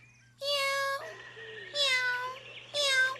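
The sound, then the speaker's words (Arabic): A cat meows three times in loud, drawn-out, high calls, with a softer, lower call between the first two. “مرحبا يا قطة. ماذا تفعلين هنا؟”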